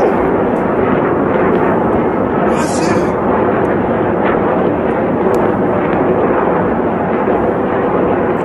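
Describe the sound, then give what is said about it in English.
Iron Dome interceptors blocking incoming rockets: a loud, dense roaring rumble that holds steady and even throughout, with no separate blasts standing out. “we've got some incredible footage of the Iron Dome blocking these rockets. Let's take a look at some of that.”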